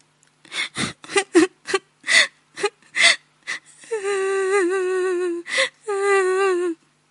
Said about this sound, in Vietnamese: Cô gái bị bỏ rơi, gào khóc thảm thương.